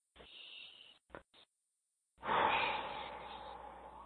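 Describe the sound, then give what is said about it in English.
A deep breath taken during a guided emotional healing session: a few short, soft breathy sounds, then a longer, louder sustained breath that slowly tapers off. “Good. Deep breath.”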